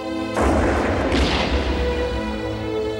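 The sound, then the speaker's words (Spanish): A single loud gunshot, fired at a figure on a hillside in a dramatized scene, bursts out early as a sharp boom with a long rumbling tail over steady background music. “Le disparan.”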